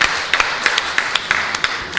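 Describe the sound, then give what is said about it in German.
Applause after a live improvised music performance: a few people clapping in sparse, irregular claps over a steady background hiss. “Applaus.”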